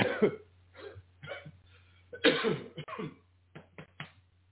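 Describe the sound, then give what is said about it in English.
A person coughs after choking: a series of harsh, irregular coughs and throat-clearing bursts, some close together, over a faint steady low hum. “Excuse me. Choke on myself.”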